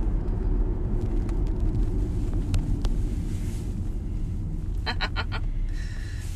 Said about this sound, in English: He's driving a Prius.